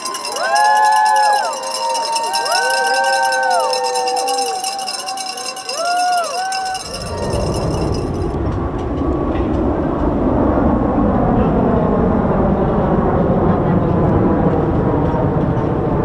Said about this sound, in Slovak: Takto to znelo na letisku v Los Angeles, keď zhruba 200 nadšených amerických športovcov, trénerov a funkcionárov nastupovalo do lietadla smer Peking.